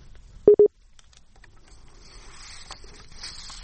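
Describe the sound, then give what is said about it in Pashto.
Two short, steady mid-pitched electronic telephone tones sound back to back after a phone call is cut off, followed by quiet hiss and faint rustling. “ها د دوی ټلیفون کټ شوې دي.”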